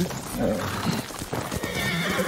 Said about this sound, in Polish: Chodź, koniku, będzie trochę szybciej. Gdzie ty jesteś? No chodźże tu.